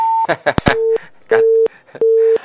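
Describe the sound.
Busy tone after a disconnected phone call: a brief voice and clicks, then three steady, evenly spaced low beeps of equal length.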